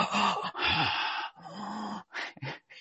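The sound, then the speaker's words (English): Ujjayi breath, the audible yogic breathing through a constricted throat also called Darth Vader or ocean breath, comes as several long, hissing, throaty breaths and then two shorter ones, with a raspy, slightly voiced undertone. “A lot of times when people teach it, they want you to make that sound so loud you can hear it across the room. People used to teach it, calling it Darth Vader breath, right?”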